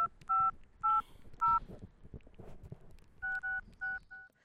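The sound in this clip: A telephone is dialled with touch-tone keypad beeps, clear steady tones in two groups: three evenly spaced beeps, a pause, then a quicker cluster of several more over faint background noise.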